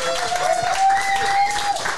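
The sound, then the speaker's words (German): Audience applause as a guest is introduced at a live event: dense, even clapping throughout, with a thin, steady tone running over it. “Erstmal einen riesengroßen Applaus.”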